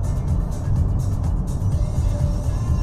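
A car engine cruises in sixth gear at 2,000 RPM at about 100 kilometres per hour, giving a steady low rumble and road drone that stays constant and fairly loud throughout.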